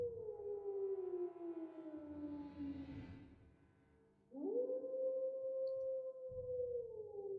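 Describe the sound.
A faint wolf howling in the hills: two long, mournful tonal howls. The first glides slowly downward and tapers off, and after a brief lull the second rises sharply before sliding gradually down again.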